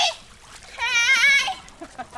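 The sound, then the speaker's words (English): Girls splashing in a backyard swimming pool on a hot, humid day: bright watery splashes and sloshing, with a child's high voice rising briefly over the water noise. “It's hot and humid, so it's a relief for the girls to be able to splash in the family's backyard pool under the watchful eye of two college student aides.”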